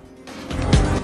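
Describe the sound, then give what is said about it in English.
A limousine goes into a slide during a car chase: a low vehicle rumble and tyre noise swell over about a second, with no distinct squeal. “The two cars go either side of a Volvo and the limo goes into a slide before heading off.”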